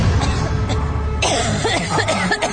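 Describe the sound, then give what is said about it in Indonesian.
A person coughing just outside a bedroom door, a few rough coughs over a steady noisy background, with no talking. “Aku mendengar lagi suara batuk itu. Dan kali ini suara orang batuk itu tepat di depan kamar tidurku.”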